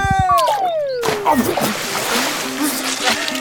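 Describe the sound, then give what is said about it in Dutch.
A cannonball jump into a garden paddling pool on a warm day: a brief voice with falling pitch, then a loud, broad splash that settles into a spray of sloshing water. “Daar gaat hij. 3, 2, 1. Bommetje!”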